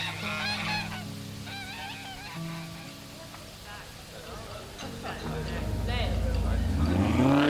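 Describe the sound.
A large parade float drives by through a neighborhood, its deep engine rumble swelling loud toward the end, with voices over it.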